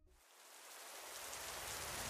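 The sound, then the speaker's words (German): Heavy rain pours down outdoors beside a riverside wall. The faint, dense hiss swells over the first second and then holds steady and unbroken. “Es regnet in Strömen. Ich bin schon komplett durchnässt.”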